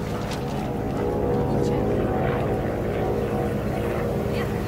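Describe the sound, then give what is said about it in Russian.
A bomber aircraft flies away over a town square in a wartime film scene, its engines a dense, steady droning roar with rumbling low end that stays loud throughout the passage. “Одна из них смотрит вверх, провожает взглядом удаляющийся бомбардировщик.”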